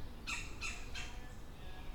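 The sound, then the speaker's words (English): Flicker woodpeckers calling from a tree: three harsh, squawking bursts come at an even pace in the first second, and a quieter stretch of faint background noise follows. “It's woodpecker action over here. Yeah, hi, buddy. We got two flickers on this tree over here.”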